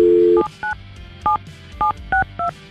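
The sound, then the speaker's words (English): A telephone number is dialed by a radio host calling a listener. A steady dial tone gives way to several short, evenly spaced touch-tone beeps at different pitches. “We have his phone number. We're going to call Thomas now”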